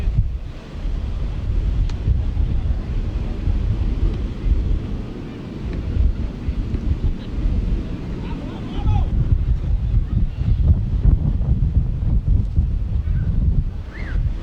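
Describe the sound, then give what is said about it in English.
Strong wind whips across a fourth-floor spot during a baseball game, loud low rumbling buffeting and gusts battering the microphone without a break for the whole stretch. “Wind up here on the fourth floor is whipping. There's nothing we can do about this.”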